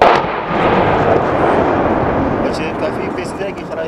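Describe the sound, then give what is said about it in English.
Mortar fire directed at an enemy fighting position: a loud, sustained roar of blasts that is strongest at the start and fades slightly, with a crackling rumble. “Yeah, we're going to put mortars down in that location.”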